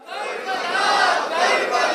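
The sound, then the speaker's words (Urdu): A crowd chants a religious slogan in a dense, continuous roar of many voices. It swells quickly at the start and then holds loud and steady. “چلے میں بھی نعرہ لگا دیتا ہوں، ثواب میں میں بھی حصہ لے لیتا ہوں”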